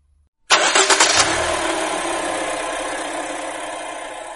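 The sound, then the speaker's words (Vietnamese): A car engine starts abruptly after silence, with a few quick cranking pulses that catch into a loud roar, then settles into a steady, slightly fading idle. “Nghe tiếng xe dưới lầu”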